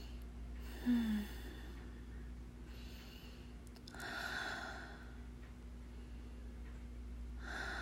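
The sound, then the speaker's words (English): A woman breathes slowly and softly in a calm cuddling role-play, a few airy breaths spaced well apart over a faint, steady low hum. “Listen to mommy breathe. The sound of my heart gently pounding against your ear.”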